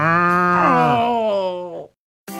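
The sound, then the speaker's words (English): A cow gives one long, drawn-out moo with a rough, droning tone. The call holds steady, then fades into silence. “I think this cow likes me.”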